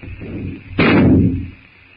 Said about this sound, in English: With the shot, the jungle noises stop.